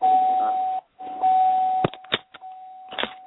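A steady mid-pitched beep tone on a telephone line marks an incoming caller to a radio call-in program. It holds almost continuously, with one brief break, over muffled line noise, and several sharp clicks and crackles cut in toward the end.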